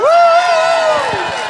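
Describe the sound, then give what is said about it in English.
A loud, whooping cheer greets a performer returning to the stage at a cold gig. One sustained voice rises, holds and then slowly falls over faint crowd noise. “Let's bring Shannon Noel back on stage now. Live on goal for song number two. Big round of applause for Shannon Noel.”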